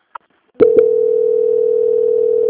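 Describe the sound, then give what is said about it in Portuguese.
A telephone tone heard while a call is being transferred: a brief click, then a couple more clicks, followed by a steady, unbroken mid-pitched tone that holds to the end. “Só um momento, vou transferir a ligação aqui. Ok. Transferência.”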